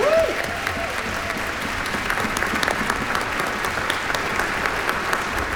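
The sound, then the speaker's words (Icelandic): Audience applause at a symphony orchestra concert with children's choirs: dense, steady clapping that holds at an even level through the whole clip. “Og við skulum gefa Hrafnkeli Orra sem útsetti lögin svona fallega gott klapp. Bravo!”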